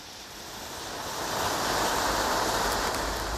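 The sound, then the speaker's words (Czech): Firewood catching fire in a stove gives a broad, rushing hiss that swells steadily over the first half and then holds at a full, even level. “Tak mi aspoň podpal dříví v kamnech, to umíš?”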